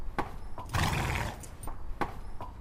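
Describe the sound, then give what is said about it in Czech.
A black Old Kladruber mare, outdoors with her foal, gives a breathy snort lasting about half a second, with a few sharp hoof-like clicks before and after it. “Takhle volá ta klisna, to hříbě? Ne, to je jenom odfrkla, to zařechtá, když volá hříbě.”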